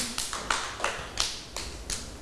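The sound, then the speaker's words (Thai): Hand clapping at a school with a young child, a few loose claps and taps arriving irregularly over two seconds, moderately loud and uneven rather than a crowd's roar. “ปรบมือให้น้องสแตมหน่อยค่ะ”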